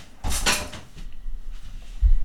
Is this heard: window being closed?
yes